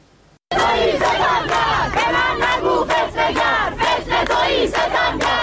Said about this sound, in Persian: میدان آزادی تهران، شامگاه چهارشنبه 16 آذر، سومین روز از فراخوان برای شدت بخشیدن به اعتراضات سراسری.